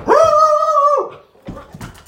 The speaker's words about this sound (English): Oh, my dog is probably going to bark like a madman here in about 2 seconds because